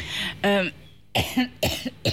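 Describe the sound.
Several short coughs from a tickle in the throat, loud bursts separated by brief pauses, with a quicker cluster of coughs toward the end.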